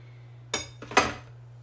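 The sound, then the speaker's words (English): A spoon stirring coffee in a mug gives two bright metallic clinks with a softer tap between them, over a faint low hum. “I can't drink black coffee because that's just not how I roll, friends. All right, let's stir this bitch up.”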